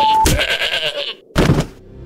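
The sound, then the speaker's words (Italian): A goat bleats twice, loud and wavering: first a long quavering cry, then after a brief pause a shorter one, followed by faint low noise. “Ah, la caprata! Ah, la capra! Ah, sopra capra, la capra fa male!”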